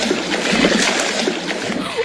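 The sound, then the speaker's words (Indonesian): Water splashes as a fish leaps and drops back into the sea: brief, choppy sloshing and spattering at moderate loudness over a couple of seconds. “Wah, ikannya lompat. Iya, ikannya kabur. Ideh, ikannya masuk lagi ke laut.”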